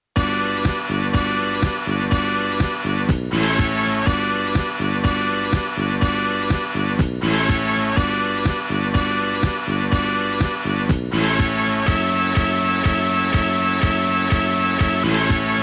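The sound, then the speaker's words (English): Music samples looped and sequenced into a repeating formula for a dance track: a loud, steady beat under a dense, bright chord loop that repeats over and over and briefly drops out roughly every four seconds, with no voices. “Now, there's a little formula they make. Sample two. Play it three times, then play sample one. Followed by fragment three a whole bunch of times. And the formula sounds like this.”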